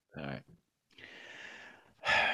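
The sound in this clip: A deep breath heard on its own: a short breathy puff, then a long, steady drawn breath lasting about a second, ending in a louder, sharper burst of breath.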